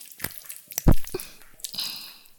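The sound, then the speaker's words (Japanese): Wet squelching of tentacles moving close to the ear, a few soft, sticky squishes with one louder, fuller squelch near the middle, heard alone without talk. “聞こえるでしょ？私の触手があなたのお耳に近づいてる音が。”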